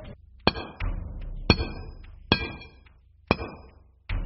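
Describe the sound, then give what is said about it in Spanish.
A pickaxe strikes rock in five heavy, ringing metallic blows at slow, uneven intervals, with a lighter tap just after the first. Each hit snaps in sharply and then decays with a brief, bright clang. “El pico hería, hería, hería, haciendo gemir a la montaña en medio de la naturaleza, indiferente a las angustias del hierro.”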